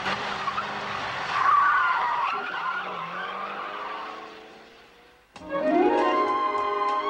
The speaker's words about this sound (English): The taxi screeches backwards through the stadium gates and turns down an exit road, speeding across a concourse.